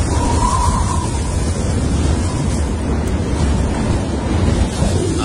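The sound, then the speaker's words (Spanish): Wind and storm sound effect: a steady, dense roar of gusting wind that holds at an even loudness throughout, with no voices. “Sí, esta va del viento, la tempestad.”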